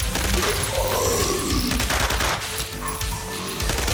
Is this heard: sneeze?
no

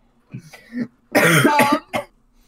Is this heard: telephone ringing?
no

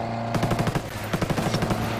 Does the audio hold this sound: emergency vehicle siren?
no

